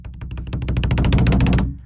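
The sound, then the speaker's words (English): A drum roll: a fast, even burst of many strikes builds to a loud, dense patter, then stops abruptly after about a second and a half. “All right. Last time doing the drum roll. You ready? Here we go.”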